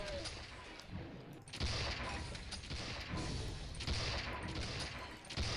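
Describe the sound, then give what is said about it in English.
Dense, continuous gunfire in a military shooter video game as enemy soldiers fire from the trees: loud, crackling shots that blur into an unbroken roar. “someone's shooting at us. Someone hiding in the trees.”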